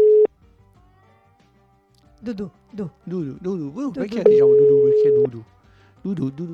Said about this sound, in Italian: E felice sia, andiamo a chiamarlo.